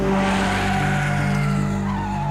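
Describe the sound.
Car tyres squeal in a sustained, steady skid, a loud high tone held throughout over a low rumble.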